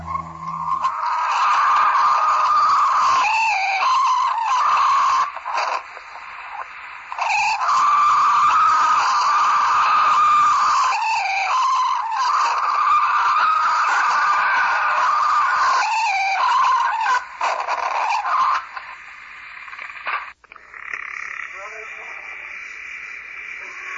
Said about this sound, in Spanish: conocen al Yeti como el Pie Grande o Bigfoot, en honor a esas gigantescas huellas que deja sobre el terreno. Escuchemos sus alaridos. Han sido grabados por un grupo de científicos en las Montañas Rocosas.